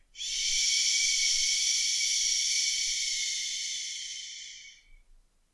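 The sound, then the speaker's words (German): A long, noisy exhale, the cleansing breath of a yoga stretch done lying on the back while drawing one knee in. A single steady, breathy hiss lasts about four and a half seconds, then tapers off. “im Ausatmen dann wechselweise immer ein Knie ranziehen, begleitet von der geräuschvollen Atmung des”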